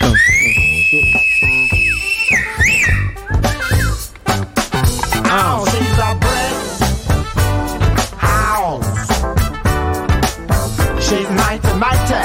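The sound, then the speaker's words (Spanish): A person whistles a clear, steady high note held for about two seconds. Loud rhythmic music with beats then takes over for the rest of the stretch. “El chiflío es importante acá.”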